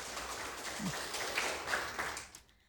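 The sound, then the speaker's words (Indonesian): Faint applause for a quiz team after an answer in a school quiz contest, a soft, steady patter of clapping that fades away near the end. “Ya, beri tepuk semangat dulu untuk regu C.”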